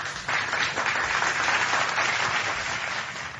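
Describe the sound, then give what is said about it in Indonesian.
Applause during a talk, steady dense clapping for a few seconds that eases slightly toward the end. “Kita kasih applause dulu.”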